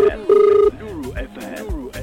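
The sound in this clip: Telephone ringback tone on an unanswered call: a short tone and then a longer steady one, followed by a voice speaking.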